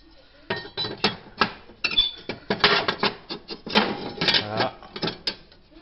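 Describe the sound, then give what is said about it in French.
Metal clanks and clinks as the top plate is refitted on a Tectro TBH558 pellet stove, with many irregular knocks, taps and light rattles of sheet metal. “Ah, j'oublie pas de serrer. Je remets ma plaque du dessus.”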